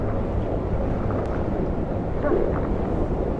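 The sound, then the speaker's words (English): Wind blowing high above a city makes a steady, unbroken rushing roar, low and fairly soft, that never lets up. “You get used to all the wind up here.”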